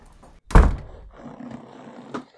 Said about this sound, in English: Get the door while you're at it.